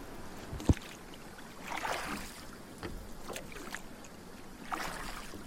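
Paddle strokes of a canoe or kayak moving through water: a few swishing, splashing pulls with a sharp knock early on, set against a soft watery wash.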